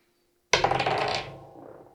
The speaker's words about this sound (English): Okay, roll to hit. Difficulty 10.